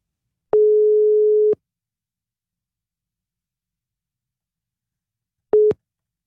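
Telephone ringback tone while calling a ticket-contest winner: one steady mid-pitched tone of about a second, a long silence, then a second tone cut short.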